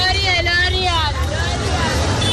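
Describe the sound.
Busy roadside street din with passers-by, motorbikes and buses: a steady low traffic rumble and crowd babble run beneath a voice that talks throughout.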